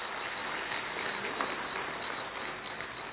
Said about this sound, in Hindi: एक बार पुनः जोरदार तालियां।